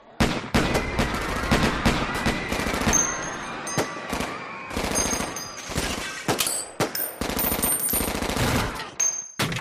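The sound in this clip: Gunfire from a shooter firing inside a cafeteria: many loud, sharp cracks in rapid, irregular succession, with short dense bursts throughout.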